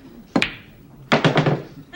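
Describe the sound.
A pool cue strikes balls on a pool table: one sharp crack, a pause, then another hit followed by a quick run of clacking ball collisions.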